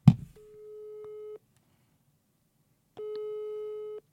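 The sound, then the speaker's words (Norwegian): A telephone busy signal heard while calling someone: two steady mid-pitched tones, each about a second long, separated by a long silence, after a brief soft rustle at the start. “Jeg prøver å ringe Kalbakk, ja.”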